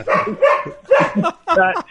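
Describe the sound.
A dog barks in three loud, drawn-out bursts in quick succession, with short gaps between them and no other sounds.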